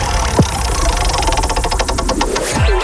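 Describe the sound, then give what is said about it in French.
A prize wheel spun on a radio game show gives a quick, even run of ticking clicks, framed by falling swoosh effects before and after. “On fait tourner la roue, ok.”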